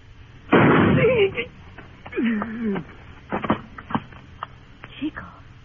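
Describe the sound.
A gunshot in a radio western drama: one loud, sharp blast with a short ringing tail, followed by people talking.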